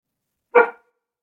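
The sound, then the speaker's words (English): A single short dog bark, sharp and mid-pitched, sounding alone against silence with no voices around it. “Sorry about the dog.”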